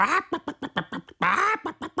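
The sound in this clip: A human voice imitates a hen clucking with a quick run of short, rhythmic syllables. A longer drawn-out call sits in the middle, and the sound is loud and clear.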